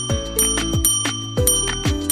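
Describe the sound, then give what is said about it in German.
A bell being pressed: several bright metallic rings in an uneven rhythm. Each strike has a clear ringing tone and overtones that fade quickly before the next ring. “Plötzlich taucht Radkatz auf und drückt auf die Klingel.”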